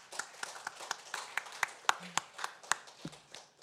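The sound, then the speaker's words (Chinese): Clapping from a church audience thanking a woman for her testimony during a service, with many sharp claps in a fairly steady, brisk rhythm at moderate loudness and no talk over it. “好吧，用掌声。”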